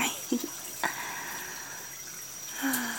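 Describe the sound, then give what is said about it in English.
Water runs steadily to rinse a person off, a faint, even hiss of spray throughout with a couple of soft splashes. “Oh yeah, I'm ready to be rinsed off. This water feels so good.”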